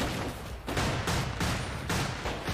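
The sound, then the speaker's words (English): Gunshots fired into the air: loud, sharp reports in quick succession that run together into a continuous, crackling barrage with several stronger blasts. “Why is he just shooting in the air?”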